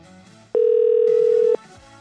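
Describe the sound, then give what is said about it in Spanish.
Telephone tone while a call is being dialed: one steady, mid-pitched electronic beep lasting about a second, sharply louder than the quiet surroundings before and after it. “Pongan atención a su teléfono, ¿eh? Estamos marcando.”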